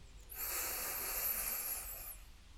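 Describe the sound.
A single long, deep breath drawn during a guided meditation breathing exercise, heard as a soft, steady, airy hiss for about two seconds. It is alone and fairly faint.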